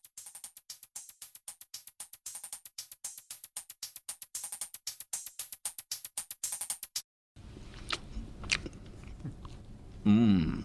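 Someone chews food with many crisp, crunchy bites in a fast, even rhythm for several seconds, then the chewing stops and quieter, mixed sounds follow.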